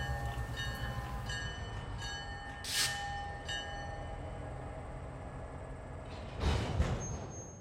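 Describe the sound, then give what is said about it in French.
An early train enters a station on wooden rails topped with metal strips, giving a steady low rumble under sustained whistle-like tones, with two louder hissing bursts rising above it. “Tiens, justement, nous l'entendons entrer en gare, et juste à l'heure.”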